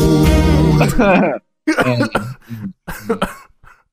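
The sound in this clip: Coughing: a loud, harsh, rough cough that stretches over a second, followed by a few shorter throaty bursts.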